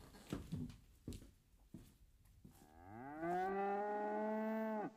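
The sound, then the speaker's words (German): Cattle mooing: a few short, soft sounds lead into one long, loud moo that rises briefly, then holds a steady, rich tone before cutting off. “Ich wachte auf vom Muhen der Kühe.”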